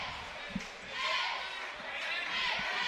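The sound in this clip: A basketball dribbled on a court late in a game, a few low, dull bounces that barely rise above steady crowd noise, with people talking throughout.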